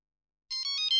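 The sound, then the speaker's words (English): A mobile phone ringtone starts about halfway through, bright electronic tones pulsing in a few quick repeated bursts after a silent opening, with no voices. “No, that's my mobile phone.”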